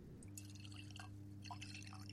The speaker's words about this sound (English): we're going to get the glug at the moment as I pour mine.